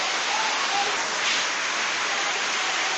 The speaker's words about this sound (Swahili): kwa mvua imezidi hii sauti inakuwa ni hatari, inakuwa kali sana